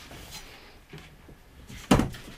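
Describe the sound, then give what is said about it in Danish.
A handle is loosened and a wheeled cabinet inside a rotating house is pulled, producing a sharp clunk with a brief rattle. Fainter handling noises come before it. “Nu så vi lige løsner vi håndtaget. Og så hiver vi simpelthen”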